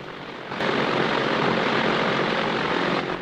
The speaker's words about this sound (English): Jim starts up his plane and sets off across the grass. Behind him, the line of planes rev up their propellers and start to move off after him.